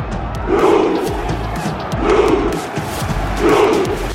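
A football crowd roaring and cheering. The loud collective shout swells and eases in three broad surges over a constant background roar.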